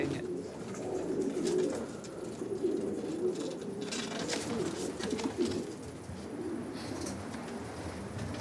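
Racing pigeons coo in their loft, with many soft, low, rolling coos overlapping continuously at a fairly faint level.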